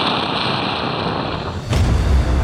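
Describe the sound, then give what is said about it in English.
Thermonuclear bomb array detonating at the South Pole on Mars: a steady, loud, noisy roar, then a sudden deep boom swells into a heavier low rumble that continues to the end. “Counter 9 detonated the entire South Pole thermonuclear array.”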